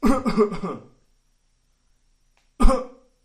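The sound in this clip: A voice imitates the small, dry coughs and gagging that come before throwing up: a short run of throaty bursts, a pause of silence, then one more sharp cough.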